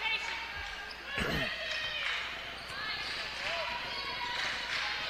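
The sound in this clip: A basketball is dribbled on a court during a game, giving a few hard, low thumps over steady crowd noise while a commentator talks.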